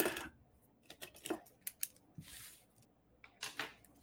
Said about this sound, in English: All right, I just had to write that down so I don't forget, because I know I will.